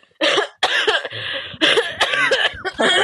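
Loud, harsh coughing fits from a person, several bursts in quick succession with brief gaps, rough and breathy, heard alone without talk.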